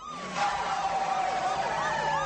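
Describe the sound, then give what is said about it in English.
Police sirens wailing, with several overlapping tones sweeping up and down in pitch, loud and continuous from start to end. “registers the police sirens.”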